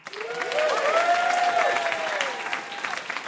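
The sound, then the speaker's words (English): Audience applause for a contestant after the final round of a live quiz show, a steady, dense wash of clapping that swells quickly and holds for about three seconds. “Another round for Susan, everybody.”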